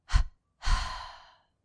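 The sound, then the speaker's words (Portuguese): Two mouth exhalations in a muscle-tension breathing exercise, done after a deep breath is held: a short puff, then a longer breathy outflow that tapers gradually into silence. “inspira profundo, contrai a musculatura do corpo, retém e exala pela boca com uma dupla exalação.”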